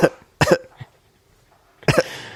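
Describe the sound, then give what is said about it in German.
A person coughs a few times, harsh and throaty, with short bursts clustered near the start and another near the end, separated by quiet. “Hust.”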